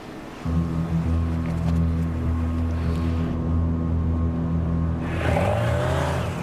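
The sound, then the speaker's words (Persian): A motorcycle approaching gives a steady, loud engine drone with layered low harmonic tones throughout, joined by a broader rushing swell toward the end. “موتور سوار داره میاد. خودشه.”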